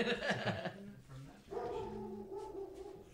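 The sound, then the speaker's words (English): A friendly female dog barks and yips in a few quick, fairly faint bursts, followed by a longer, higher whining tone. “Don't mind the dog, she's friendly. The dog is friendly.”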